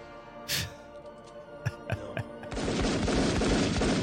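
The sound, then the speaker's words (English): Gunshots from an AI-generated video of a shooting scene: a few sharp, separate bangs, then a dense, continuous burst of rapid gunfire that stays loud to the end. “You got Biden and the guy shooting at Trump.”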